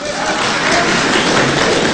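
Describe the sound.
Audience applause at a Chinese crosstalk (xiangsheng) comedy performance: dense, steady clapping that fills the whole stretch at an even, fairly loud level, with no break.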